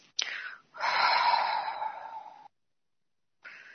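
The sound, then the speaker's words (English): A long, breathy exhale during a guided breathing exercise follows a brief sharp intake. After a pause of silence, another soft breath begins. “And breathe in. All what is yours and good. And breathe out.”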